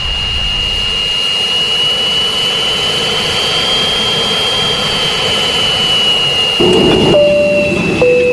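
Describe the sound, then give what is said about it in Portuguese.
Loud, continuous roar of a passenger jet's engines during takeoff: a constant high-pitched whine over a broad rumble that holds steady throughout, with no voices. “vamos apertar os cintos aí, vamos decolar agora, vambora.”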